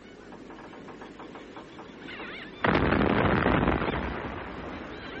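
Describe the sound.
Artillery guns firing: faint rumbling background, then a sudden loud blast that turns into a long, heavy roar and slowly fades.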